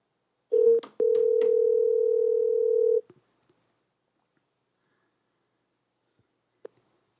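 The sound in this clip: Telephone tones while a call is being placed: a brief tone, then a steady tone held for about two seconds, followed by near silence with a few faint clicks.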